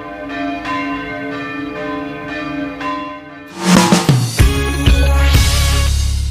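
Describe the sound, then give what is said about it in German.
Church bells ringing at St. Stephan church in Munich as worshippers enter: sustained, steady bell tones at first, then much louder, dense clanging peals with many overlapping strikes. “wenn der Einzug der Gläubigen in die Kirche von Glockengeläut begleitet wird. Das ist einfach schöner, wenn gescheit geläutet wird.”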